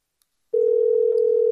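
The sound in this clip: A telephone dial tone sounds while calling out. It is one steady, unbroken tone at a single pitch, starting after a brief silence and continuing loud and alone to the end.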